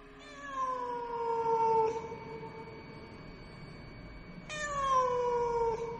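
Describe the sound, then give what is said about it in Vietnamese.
A cat yowling as it is chased out through a window at night: two loud, drawn-out wavering cries, each starting high and sliding downward in pitch, separated by a pause over faint background hiss. “Nó kêu lên một tiếng, rồi nhảy vọt ra ngoài cửa sổ, biến mất trong màn đêm, để lại những âm thanh cô liêu ghê rợn.”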